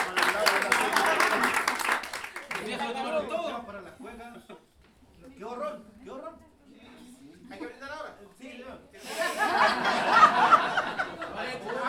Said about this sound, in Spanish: Un aplauso para ellos.